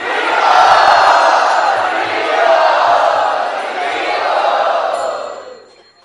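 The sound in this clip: A crowd cheers loudly in welcome in a sustained, dense roar of many voices that stays strong for several seconds, then fades away near the end.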